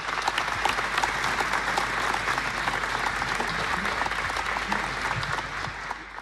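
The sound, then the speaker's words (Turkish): Loud, steady audience applause welcomes a folk singer about to perform an Erzincan folk song with voice and saz, keeping a dense, unbroken clatter of many hands for the whole stretch. “Erzincan türküsünü seslendirecek sanatçımız sesiyle ve sazıyla geliyor. Süleyman Yıldız'ı alkışlıyoruz.”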